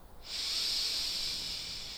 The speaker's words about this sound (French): Prends une grande inspiration.